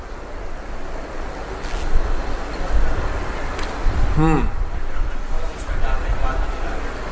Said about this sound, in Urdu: بارش ہو رہی ہے خواتین کی طرف، بارش تیز ہو رہی ہے، آندھی بھی ہے بارش بھی ہے